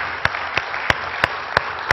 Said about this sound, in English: Let's give the Lord a big clap of hand.